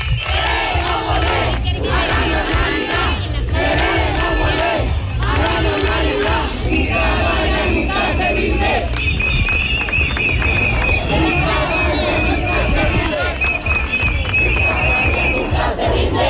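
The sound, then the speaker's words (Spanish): Crowd chanting during a street protest march: a loud, dense wash of many voices that carries on without pause, with shouted cries rising over the steady roar. “Estos son algunos de los cánticos que se escuchan durante todo el recorrido.”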